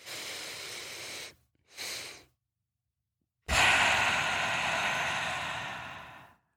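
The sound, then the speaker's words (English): Cyclic sighing breath: two quick nasal inhales, a longer one and then a short top-up, are followed by a pause and one long, steady exhale through the mouth that fades gradually. “You breathe in twice through your nose. You breathe out once through your mouth.”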